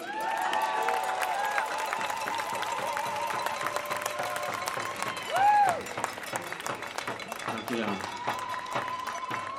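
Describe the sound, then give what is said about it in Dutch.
A crowd at a demonstration applauds and cheers as a speaker is welcomed. Steady clapping runs under shouts and raised voices, with one louder surge of cheering partway through. “Mag ik een groot applaus voor Tofik Dibi?”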